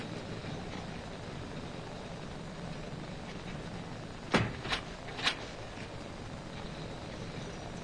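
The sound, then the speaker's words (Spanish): A door opens with three sharp, quiet clicks of latch and handle in quick succession, set against a steady low hiss. “se abre la puerta.”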